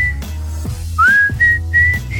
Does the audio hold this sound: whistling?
yes